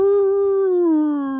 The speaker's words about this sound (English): It's such a unsettling howl that he does when he's chasing her.